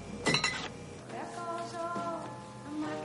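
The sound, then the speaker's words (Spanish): Glass bottles clinking as a nearly empty kitchen refrigerator is opened and a beer bottle is taken out; a short, bright burst of clinks comes early, followed by quieter ringing tones. “Juliet abre el frigorífico que está casi vacío por completo y coge una cerveza.”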